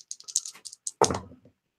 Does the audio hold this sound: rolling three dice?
yes